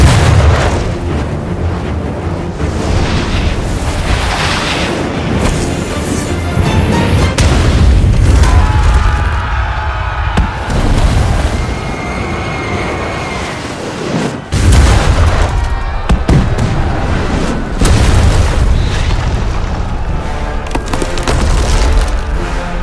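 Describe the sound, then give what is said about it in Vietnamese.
Heavy booming cannon fire from an early gunpowder cannon, loud and continuous, with deep rumbling blasts running together and a few sharper bursts standing out. “Thần pháo nghe lệnh! Bắn!”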